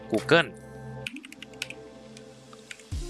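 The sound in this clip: Typing on a computer keyboard: a quick burst of light plastic key clicks follows a brief voice at the start, then a few scattered taps.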